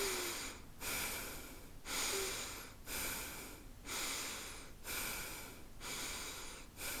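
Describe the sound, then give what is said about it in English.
Rhythmic breathing in a breathing exercise: a steady series of noisy, airy breaths, roughly one per second, continuing throughout with no talk. “And then you stretch it out into a longer breath.”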